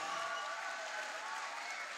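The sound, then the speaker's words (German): Steady applause from an audience thanking the people behind an evening event, a dense, even wash of clapping that holds at a fairly loud level for the full two seconds without distinct single claps. “Komm, wir geben all diesen Leuten, die noch mehr dahinter sind, einfach einen dicken Applaus.”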